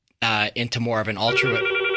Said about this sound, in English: It sounds like we got a phone call.